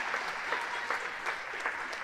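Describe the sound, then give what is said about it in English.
An audience claps for children coming on stage to perform: fairly faint, loose clapping with individual claps standing out and scattered voices mixed in. “Let's just clap for them, let them know how much we love them.”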